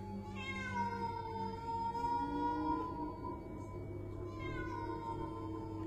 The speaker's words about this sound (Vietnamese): Đột nhiên, con mèo kêu lên mấy tiếng. Trong đêm, tiếng mèo kêu nghe rợn cả người.